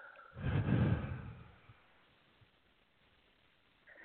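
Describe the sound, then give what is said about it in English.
A single soft, breathy rush of air during a guided meditation breathing exercise, swelling briefly and then fading into near silence. “I also invite the audience to just go ahead and take a breath in and then breathe out.”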